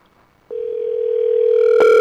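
Telephone tone on an outgoing call: after a brief quiet moment, a loud steady mid-pitched tone sounds, joined near the end by a brighter, buzzier tone.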